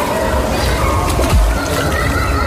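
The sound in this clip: A splash as a boy dives into water, a single deep plunge midway through amid sloshing water, with faint voices in the background.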